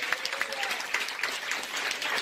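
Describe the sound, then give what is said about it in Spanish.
Applause of praise during a church service: an audience claps in dense, continuous, steady bursts for the whole stretch, with a faint voice faintly audible beneath. “Por ese aplauso de alabanza.”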